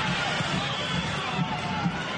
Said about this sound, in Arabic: جماهير غفيرة تملأ استاد هذا الملعب ومدرجات هذا الملعب. حتى الآن تشجيع مستمر وحاضر في أجواء شوط المباراة